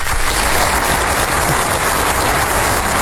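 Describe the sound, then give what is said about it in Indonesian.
Audience applause before young children in kindergarten groups perform a farewell song: a loud, dense, unbroken wash of clapping that stays even from start to end. “Tepuk tangan dulu semua.”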